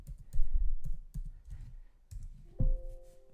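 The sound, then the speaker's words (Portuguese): A password is typed on a computer keyboard as a short run of soft, irregular key clicks and taps. “Opa, digitei a senha errada.”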